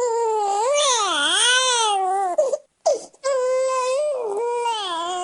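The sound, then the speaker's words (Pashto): A two-day-old newborn cries outside a private hospital in Douala, Cameroon: loud, sustained wailing with a wavering, rising and falling pitch, broken by one short pause midway before the crying resumes. “دو ورځانه ماشوم ژاړي”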